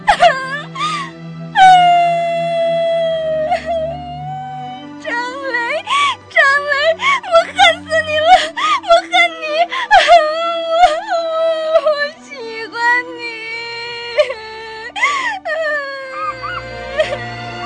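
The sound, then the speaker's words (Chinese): A woman crying uncontrollably in a radio drama: loud, wavering wails and gasping sobs that rise and fall in pitch, coming in long uneven bursts. “读完信，刘芳芳泪流如雨，她扑在桌子上，抑制不住的大哭了起来。”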